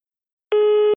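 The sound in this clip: A single short telephone line tone sounds before a phone message: a steady electronic beep about half a second long that starts abruptly after silence.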